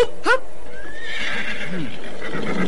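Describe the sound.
A horse gives a short, high whinny right at the start as riders mount up to set off, followed by a steady bed of softer mixed background sound.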